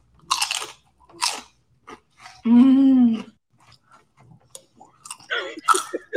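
Crunchy bites and chewing of a fried cream cheese dragon from Panda Express: a few sharp crunches, then a sustained voiced hum, followed by softer, scattered chewing noises.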